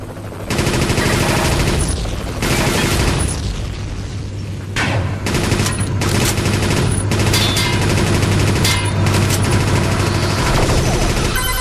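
Machine gun fire in a video game comes as loud, rapid, continuous bursts with a few short pauses, mixed with heavy booming impacts.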